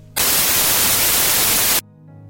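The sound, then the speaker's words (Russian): White noise: random oscillations across all frequencies form a loud, even hiss that starts abruptly, holds steady for about a second and a half, then cuts off sharply, leaving a faint low hum before and after. “То, что вы слышали, называется белый шум. То есть на всех частотах происходит случайные колебания.”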